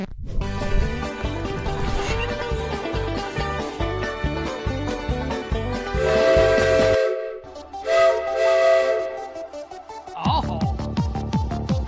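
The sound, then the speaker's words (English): A steam locomotive whistle sounds in a couple of long, hissing blasts midway through, set against a loud, pulsing rhythmic background. “As we boarded the locomotive.”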